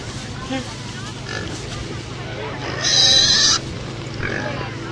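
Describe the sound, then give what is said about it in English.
A pig oinks and grunts on a farm in a few faint, low bursts, plus one short, harsh, louder snort, while people talk over a constant background hum. “That's what oink really sounds like.”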